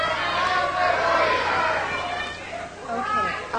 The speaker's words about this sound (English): $6,500. $6,500 is her bid. Audience seems to approve.